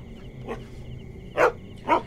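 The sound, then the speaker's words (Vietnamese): A dog barks one bark at a time: a fainter bark first, then two louder, sharper barks spaced about half a second apart, each short and alone. “Nó sủa từng tiếng một rồi bỗng nhiên nằm tập xuống”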